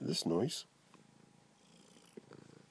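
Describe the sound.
A cat purring softly in steady low pulses after a brief, louder harmonic sound at the start. The purr stays faint and even to the end.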